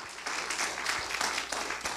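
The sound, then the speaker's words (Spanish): An audience applauds during a church service: a fairly faint, continuous wash of clapping that swells and eases in uneven waves. “Dele un fuerte aplauso al Señor.”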